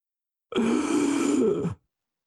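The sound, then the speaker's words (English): A hurting man takes a single long, deep breath, a voiced, groan-like exhale lasting just over a second, heard alone. “takes a deep breath.”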